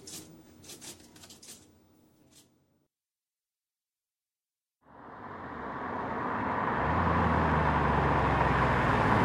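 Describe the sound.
A car being driven: after a few faint clicks and a silent pause, steady engine and road noise swells in and holds at a constant level.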